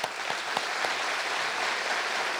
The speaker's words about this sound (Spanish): Medellín, y por eso quiero darle mi aplauso y pedirle a todos un aplauso a él.